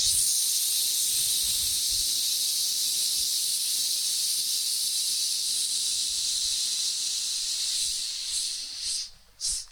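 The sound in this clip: Short, forceful exhaled breaths from a breathing exercise: a long, steady breathy hiss gives way near the end to a few sharp, separate bursts of air.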